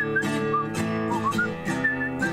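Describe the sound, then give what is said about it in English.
A person whistles a short tune: a few clear, high notes with smooth slides between them, moderately loud and unaccompanied by talk. “This is a whistling part you're supposed to do.”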